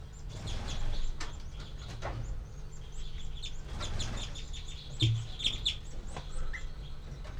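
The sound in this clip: Nestling birds in a nest make high, thin begging calls. Many short chirps overlap above a steady low hum, with a few louder peaks toward the end.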